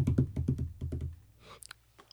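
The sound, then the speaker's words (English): Hands tapping on a desk imitate galloping hooves: a quick run of low, thudding knocks in an uneven gallop rhythm for about a second, followed by a few lighter, sharper clicks. “just galloping. It's low and rumbly, though, not like I did here on my desk.”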